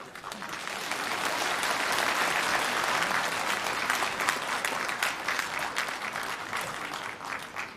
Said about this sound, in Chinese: 好，谢谢大家的掌声。